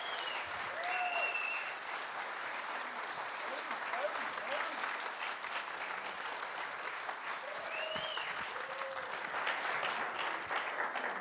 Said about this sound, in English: Would you give him a rousing welcome to City Point Church?